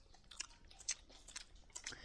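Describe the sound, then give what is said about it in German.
Crunchy chewing and biting as animals eat a roast dinner with fish and bread, a few short moist crunches at irregular intervals, fairly faint, with no talking. “Dann wollen wir mal unser Abendessen fressen. Wäre ja auch sonst schade um den schönen Braten.”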